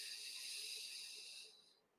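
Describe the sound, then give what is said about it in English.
A deep inhale during a guided breathing exercise: a steady, airy hiss of drawn breath that holds for well over a second, then fades away, with no voice over it. “Nice big inhale. And exhale. Inhale.”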